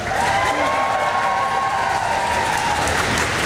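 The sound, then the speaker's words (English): Civil servants at Downing Street cheer and applaud Ukrainian President Zelensky as he shakes hands with the Prime Minister, a continuous, even wash of clapping and cheering voices. “Mr. Zelensky was cheered by civil servants as he shook hands with the Prime Minister.”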